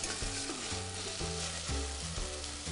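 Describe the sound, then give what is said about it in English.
Sea bass cooking skin-side down alongside head-on prawns in a frying pan, giving a constant, faint sizzle and crackle of hot oil with no voices. “Let these continue to cook for just another few moments. Now that our bass is just almost there, just another few moments on the skin.”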